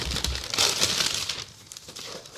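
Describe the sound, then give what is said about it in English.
Wrapping paper crinkles and rustles as a Christmas gift is unwrapped, a dense, continuous crackling with louder bursts early on that thins out toward the end. “Ooh, good sound effects. ASMR. Christmas unwrapping.”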